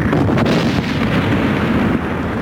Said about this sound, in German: werfen Sie eine Sauerstoffbombe. Eine Sauerstoffbombe, Sir. Bombe ab! Vorsicht, nicht weiterfahren! Explosion!